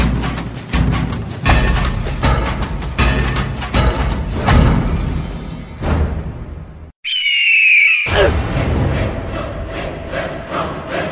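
A frightened owl squawking: a run of many sharp clattering thumps gives way to a short silence, then a single shrill, high squawk, followed by renewed dense clattering noise.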